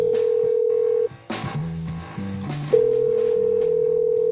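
Telephone line tones sound on an outgoing call: a steady, held tone breaks off into a stretch of mixed lower tones and clicks, then the steady tone resumes until the end.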